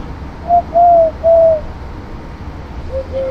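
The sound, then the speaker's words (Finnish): A person whistles and hoots to imitate a bird: three soft, steady, mid-pitched hoots in close succession, then two fainter ones, over a low constant background hiss. “naaras pällistelee ihmeissään, kun mä viheltelen tässä. Tai yritän huhuita.”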